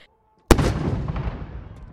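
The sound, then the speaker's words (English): A ceremonial cannon gun salute at Parliament House: one sharp, loud blast bursts out of silence and leaves a long rumbling tail that slowly decays. “A gun salute and flags half-mast at Parliament House, marking the end of an era.”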